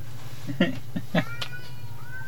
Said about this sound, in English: There's a cat fight happening at the screen door.